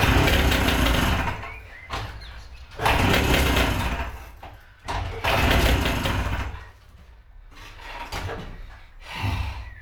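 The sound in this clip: An engine being started, cranked and revved in several loud bursts that cut off and fall away between attempts, settling into a weaker, uneven running sound toward the end.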